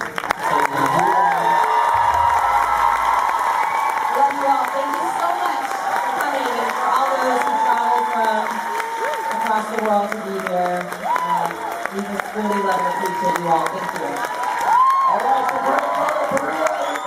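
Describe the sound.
A convention audience cheers and applauds at the Once Upon a Time Official Convention 2017 in Whippany, New Jersey: steady, loud clapping mixed with shouts and whoops that runs through the whole stretch.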